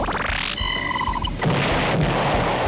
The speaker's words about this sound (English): Time to kick it into overdrive. Afterburners activate.